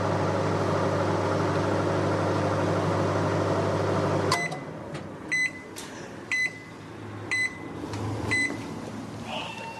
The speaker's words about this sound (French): il faut que nous le passions au micro-ondes